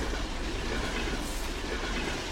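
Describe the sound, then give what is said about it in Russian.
An electric commuter train speeds along beside a forest: a steady, loud rumble and rattle of wheels and carriages, continuous from start to end, with no voices. “Электричка мчится вдоль леса.”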